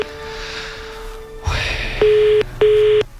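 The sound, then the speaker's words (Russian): A telephone ringing tone on a long-distance call: two steady, even beeps with a short pause between them, loud and clear over a hissy phone line. “О, куда-то далеко звоним. Слышите, гудок какой.”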